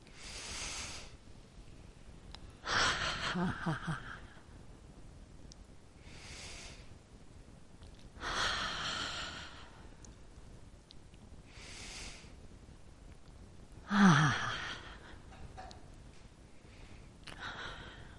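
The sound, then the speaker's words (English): A group breathes in and then exhales together with a soft ah during a spiritual gathering. Three louder breath swells rise at even intervals over faint, hissy breathing. “three nice fellowship breaths where we do an inhalation and then an exhalation together with an ah. Three times.”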